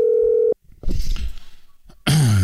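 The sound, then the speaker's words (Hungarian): A telephone tone sounds as a call is placed to a listener, holding steady for about half a second before cutting to line noise and rustling, then a voice begins. “Hívjuk a naphallgatóját gyorsan.”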